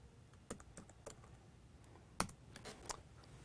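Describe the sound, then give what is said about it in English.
A password is typed on a computer keyboard while running a Linux disk benchmarking tool. Soft, faint keystroke clicks come in an irregular patter, with one sharper tap near the middle, and no talk. “Type in my password again.”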